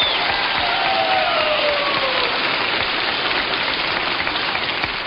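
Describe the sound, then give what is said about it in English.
Audience applause greets a country singer at the Grand Ole Opry: a dense, hissing wash of clapping with no single claps standing out, holding steady and loud from start to finish. “Let's give him a nice round.”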